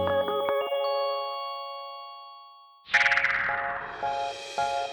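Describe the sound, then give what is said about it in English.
A telephone busy signal from a landline tied up by a dial-up internet connection: several evenly spaced, low beeping pulses. Before them comes a chiming tone that slowly fades, then a brief noisy burst. “if people tried to call you on the phone while you were using it for the internet, they'd hear this. That sound means you're busy”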